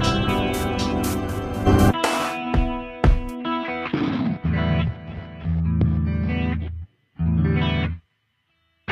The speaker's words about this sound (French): Parce qu'il y avait un espèce de délai qui se réverbe aussi.